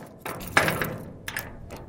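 Heavy metal doors of an empty concrete and brick building are unlocked: a few hard metallic clunks and clicks spaced irregularly, with a faint rattle between them.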